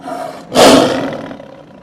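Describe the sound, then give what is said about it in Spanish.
An angry lion's roar bursts out loud after a softer, lower rumble. It holds as a harsh, throaty blast for about a second before gradually tapering off. “El león se enfadó muchísimo con los animales. Rugió como nadie lo había oído rugir.”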